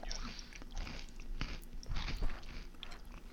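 Faint crunching and chewing as a person eats a mouthful of crunchy snack mix, one piece of each kind at once, with a steady stream of soft crisp bites and mastication.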